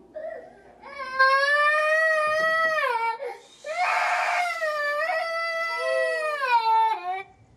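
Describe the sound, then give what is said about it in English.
A young boy cries while standing up in his crib, loud high wavering wails in two long bursts with a brief gap between them and no other voices. “stands up in his crib, crying.”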